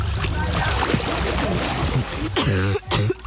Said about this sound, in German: Ich bin gerade untergetaucht und direkt wieder aufgegangen.